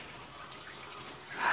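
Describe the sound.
Soft trickling water with a few light drips and splashes as someone's back is washed; faint and quiet throughout, with no talk.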